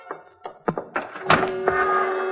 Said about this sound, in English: I went over to the window, raised it, and looked up.